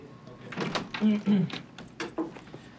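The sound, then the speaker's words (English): A door opens at a glass-walled office as someone comes through, giving a few uneven clunks and short squeaky rattles at a moderate level. “He comes through the door.”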